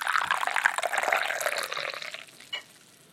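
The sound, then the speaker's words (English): Tea pouring into a Japanese-made glass: a soft, steady splashing stream that lasts about two and a half seconds, then a brief drip-like tap before it falls quiet. “That was the sound of a cup of tea.”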